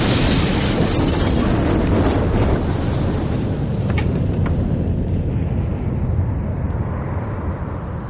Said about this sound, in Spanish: ¡Hay una bomba en la tarima! La tarima explota y toda la plaza se cubre de humo.